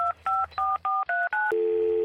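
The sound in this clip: Telephone keypad dialing to call the bank: six short, evenly spaced two-tone beeps, each at a different pitch, followed by a steady, lower continuous tone.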